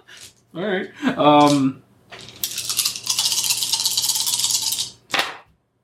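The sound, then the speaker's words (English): Dice rolled during a Shadowrun tabletop role-playing game: a brief voice first, then about three seconds of steady rattling clatter, ending with a short final knock. “We should roll one dice. Roll.”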